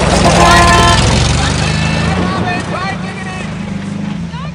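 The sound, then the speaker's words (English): A car drives off from a cottage; its low engine rumble starts loud and fades steadily as it pulls away, with people talking over it. “Robin watches them drive off.”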